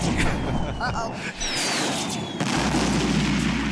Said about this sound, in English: They actually blew up the building. They actually bombed New York City in the episode.